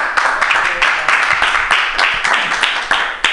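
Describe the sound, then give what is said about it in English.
A comedy club audience applauds a comedian at the end of his set, a dense, steady wash of many hands clapping with occasional louder claps standing out. “keep it going for Thank Scott, guys. Give it up for Scott right there, baby yeah.”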